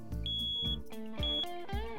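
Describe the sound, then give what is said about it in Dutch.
A smoke detector with a probably empty battery beeps, giving two sustained high-pitched tones over lower pulsing tonal sounds, fairly loud and with no voices. “sorry, dat is mijn rookmelder. Die gaat om het half uur af. En ik heb een batterij, die is waarschijnlijk leeg.”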